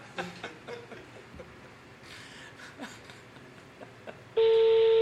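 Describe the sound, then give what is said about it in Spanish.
A telephone call starts ringing: a loud, steady ringback tone cuts in near the end, following a stretch of faint, muffled voices and background noise. “Está sonando, a ver si nos contesta.”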